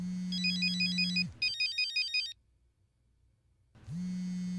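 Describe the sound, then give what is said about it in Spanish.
An electronic ringtone sounds for an incoming phone call on a Sunday evening, with a bright repeating beeping melody in two bursts. Near-silence follows, then a steady low hum returns. “Sobre las 8 de la noche de aquel domingo, la madre de Luz Estela recibe una llamada de su hija, sin saberlo.”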